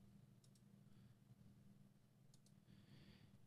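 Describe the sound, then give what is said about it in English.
Faint mouse clicks on a button, heard as two quick pairs of soft clicks separated by a pause over a low, steady background hum. “Let me go ahead and click on the button.”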